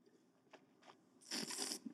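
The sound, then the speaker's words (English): A person swishes wine in the mouth and pulls air through the teeth while tasting. Two faint brief sounds come first, then a louder, airy, bubbling slurp that lasts about half a second. “You hear all that noise I'm making? Yeah. Sounds like I'm kind of gargling. Mm-hmm. But I'm just swishing the wine in my mouth, pushing it through my teeth, bringing air over it.”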